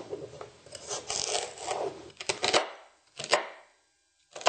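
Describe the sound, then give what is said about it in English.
A knife chops celery in a quick run of crisp, rasping cuts, then pauses and lands a few separate, louder chops. No one talks. “And I'll chop up the celery.”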